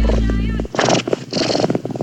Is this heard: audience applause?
no